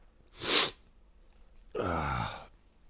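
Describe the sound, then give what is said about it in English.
A muffled sneeze behind a covered microphone, faint overall: a short, hissing burst followed after a pause by a longer, voiced, throaty burst. “Sorry, that sound is me covering the microphone so you don't have to hear me sneezing and stuff.”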